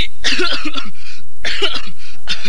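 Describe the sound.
Coughing from a person standing in a marching drill formation: a few harsh, loud coughing bursts with short gaps between them, heard without any talk.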